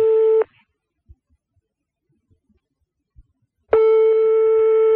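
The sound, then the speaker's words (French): A telephone ringing tone heard through the handset after redialling: a steady mid-pitched tone sounds, falls silent for a long gap, then starts again and carries on to the end. “Ah va laisser sonner. Allez, décroche, Catherine.”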